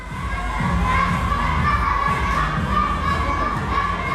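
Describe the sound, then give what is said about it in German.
Children shout and call out continuously as young athletes train in the large hall of the Swisttal taekwondo club near Bonn. The crowd noise stays steady throughout, with a few faint thuds underneath. “Es hört sich ein bisschen an wie Kindergeburtstag im Fitnessstudio. Aber in der großen Halle des Taekwondo-Vereins Swisttal in der Nähe von Bonn trainiert die kommende Taekwondo-Elite Deutschlands.”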